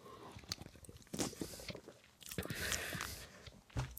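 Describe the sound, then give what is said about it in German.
Mate tea being sipped, the drink and air sucked in through the mouth: irregular wet slurps and clicking mouth noises with a few sharper bursts, fairly quiet, with no talk. “Hm, ich trinke nochmal einen Schluck Mate.”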